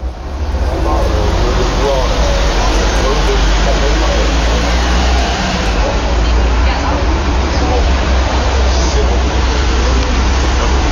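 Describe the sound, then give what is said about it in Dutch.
Busy French café terrace: a steady murmur of many voices over a continuous low rumble of passing traffic, including a metro, a car and a truck. “Dit is het geluid van een Frans terras.”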